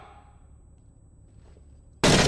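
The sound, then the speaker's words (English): Automatic gunfire from the video game Six Days in Fallujah: a sudden, loud burst of rounds bursts in at the very end after a long stretch of near silence. “One? No, I didn't even mean to do that. Okay, that was a lot of rounds to not mean to do.”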